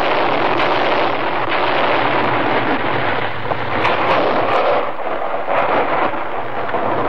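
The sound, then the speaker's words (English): Continuous loud rumbling roar from blank artillery shells fired by a forest service team to trigger an avalanche in the Rocky Mountains, a steady wash of booming noise with no clearly separate blasts. “That is the sound of a United States Forest Service artillery team clearing an avalanche in the Colorado Rocky Mountains.”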